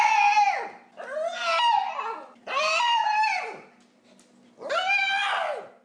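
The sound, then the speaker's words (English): A small dog screams for food in four long, high-pitched wailing cries, each loud and strained and separated by short pauses. “This is what the noise this little dog makes.”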